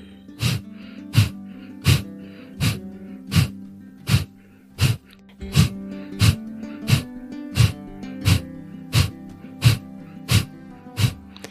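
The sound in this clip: Rapid, forceful nasal exhalations of Kapalabhati breathing practice, a long, evenly spaced series of sharp breath bursts repeating about every 0.7 seconds at a steady pulse, with no talking.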